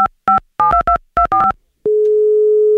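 Telephone keypad tones beep in a quick irregular series as an outgoing call is dialed, followed by one long steady tone on the line.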